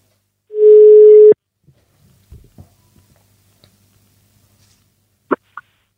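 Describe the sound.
A single steady telephone tone of an outgoing call sounds loud and unbroken for under a second, then gives way to near-silence with a few faint clicks and two brief sharper clicks near the end.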